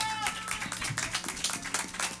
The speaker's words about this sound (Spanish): Por favor, un aplauso.